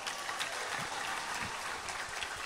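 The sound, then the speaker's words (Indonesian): Faint applause from an audience at a talk: a dense, even wash of many hands clapping that holds steady throughout, with no voices on top. “Boleh tepuk tangan kok.”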